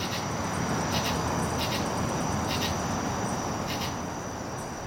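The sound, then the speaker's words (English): Flying squirrels chirping at night in a city park: a few faint, sharp high chirps spaced irregularly above a constant, loud droning bed of insect noise. “One really surprising thing that I heard, flying squirrels. They live in this park. They're nocturnal and they chirp at night.”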